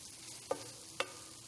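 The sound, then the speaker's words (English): Unsalted butter melting and sizzling in a pan: a faint, steady frying hiss runs throughout, broken by two brief sharp ticks or pops. “okay, so we have our butter melting now. And once our butter's melted, we can go ahead and add our cream.”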